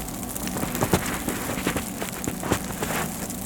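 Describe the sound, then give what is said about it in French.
Many small water droplets splash onto a carpet in a dense, steady, crackling patter, with a few sharper drops standing out above the continuous spatter. “Multitude de gouttelettes d'eau qui s'écrasent sur le tapis.”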